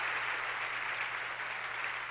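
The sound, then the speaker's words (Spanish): Steady, dense applause from an audience at a worship service, praising the Lord after a prayer. The clapping is loud and continuous, an even roar without separate claps. “Dale un aplauso poderoso al Señor.”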